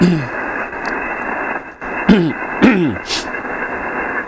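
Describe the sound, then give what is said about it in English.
Steady, loud hiss of static on an amateur radio band, continuous throughout, broken by a few brief crackles and quick falling chirps. “A lot of static here, too.”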